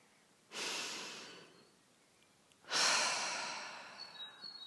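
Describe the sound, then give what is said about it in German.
Two long, deep breaths taken while sitting relaxed at the start of a meditation exercise. Each is a soft, airy rush that swells quickly and then slowly fades, with a quiet pause between them. “Nimm ein paar tiefe Atemzüge.”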